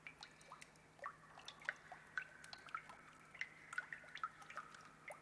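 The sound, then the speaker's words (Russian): Last raindrops of a fading rain dripping onto calm water: many small, bright plinks fall at an irregular pace, quiet and on their own with no talk. “Дождь сходит на нет. Последние струйки создают легкую рябь на спокойной поверхности воды, напоминая дорожку.”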